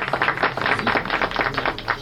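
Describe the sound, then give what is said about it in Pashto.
Audience applause welcoming a speaker at a gathering: dense, even clapping at a steady, fairly loud level from start to end. “په افتخار یې لاسونه وپړکوئ”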